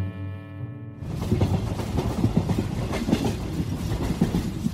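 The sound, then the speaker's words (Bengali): A train runs through the night toward Kalka. After a short sustained tonal opening, steady clickety-clack of wheels over rail joints sets in under a continuous low rumble and keeps going at an even, moderately loud level. “এখন রাত 9:30। আমরা ট্রেনে করে অন্ধকারের মধ্যে দিয়ে কালকার দিকে ছুটে চলেছি।”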